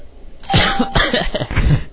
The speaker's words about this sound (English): It's been very well behaved up until now, and now I'm in a coughing fit I can't control.